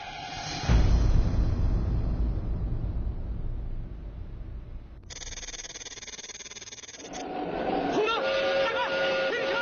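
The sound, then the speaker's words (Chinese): Train braking hard on a stormy night, wheels grinding on the rails: a loud low rumbling roar, then a bright hissing screech, then sustained high-pitched squealing as the train slows. “十二次列车司机赶紧拉起制动闸，车轮与车轨摩擦，冒出巨大的火花。”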